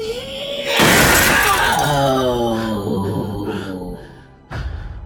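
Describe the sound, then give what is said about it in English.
First-floor windows burst outward with loud shattering glass: a sudden bright crash, then a long ringing, decaying spill of breaking fragments. Another sharp burst follows near the end. “The shrill sound, coupled with the force of her voice, caused all of the first floor windows to burst outwards.”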